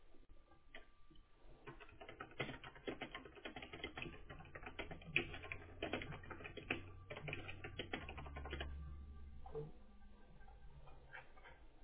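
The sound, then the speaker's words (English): Rapid typing on a computer keyboard as a first and last name are entered: many crisp, irregular keystroke clicks in quick bursts, fairly quiet and steady, with no talking. “it says click here and type your name. Yes. Right. Uh-huh. You just type it out.”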